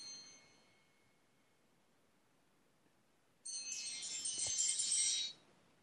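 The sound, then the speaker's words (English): An alarm bell rings, set as a timer during a talk: a bright, high, steady ringing bursts in after near silence, lasts about two seconds, then cuts off abruptly. “Bell's ringing. That was my alarm.”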